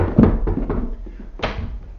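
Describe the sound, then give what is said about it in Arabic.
Someone knocks on a door: a few sharp, irregular raps, with a short pause before a final, louder knock. “لماذا لا تجيب يا من تطرق الباب؟”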